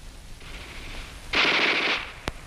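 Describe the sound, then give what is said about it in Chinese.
Japanese Type 11 light machine gun firing a rapid, crisp burst. A fainter stretch of fire comes before it and a single sharp shot follows, all over a low rumbling background. “你听啊，那小歪把子声音多脆呀”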